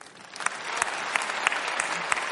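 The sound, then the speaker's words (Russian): An audience applauds at an awards ceremony. The clapping builds from quiet to a full, steady patter, with a few sharper individual claps standing out. “Я бы попросила отдельные аплодисменты и память Виктору Цою.”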